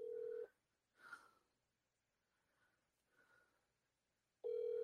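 Telephone tones sound as a call is dialed: one steady tone at the start and another at the end, with faint, breathy noises in the quiet gap between them.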